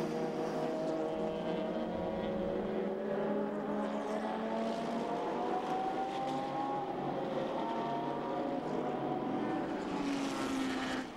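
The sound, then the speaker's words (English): A number 92 Porsche race car climbs over the top of a hill during an endurance race at Spa, its loud, sustained high-revving engine drone running throughout while the pitch slowly climbs. “'92 Porsche going over the top of the hill a moment or two ago, just about kept the wheels on the track.”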